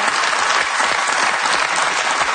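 Audience applause as a dense, steady wash of many hands clapping, loud and even throughout.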